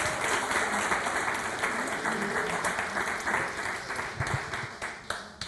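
A church audience applauds in a dense, steady wash of clapping that holds at an even loudness from start to finish.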